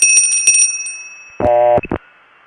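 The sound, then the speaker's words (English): A bicycle bell is rung as a stand-in for a long-distance telephone line tone: one sustained bright metallic ring, then two quick short dings. “I'll use my bell this time.”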